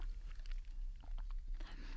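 Faint chewing of sweet potato, soft moist bites and small crunches repeating irregularly for a couple of seconds, without talk.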